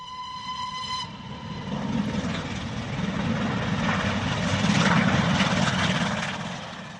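A train departing a station, heard as a sound effect. A brief steady harmonic tone comes first, then a broad rumbling roar swells and slowly eases off, with no voices.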